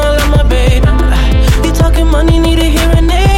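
A new pop single plays loud, driven by steady punchy kick drums under sustained synth chords and bright melodic tones, with no talking over it.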